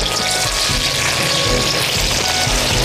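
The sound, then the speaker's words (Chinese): Ginger slices sizzle in a hot pan with browned, tightened meat, giving a loud, continuous crackling hiss that stays steady throughout with no pauses. “煸的这样的就这个肉很紧缩了，然后成金黄色的，下两个这个姜片让它爆香。”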